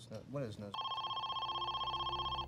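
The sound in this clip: A telephone rings with a steady electronic trill that pulses rapidly and evenly. A voice speaks briefly just before the ringing starts.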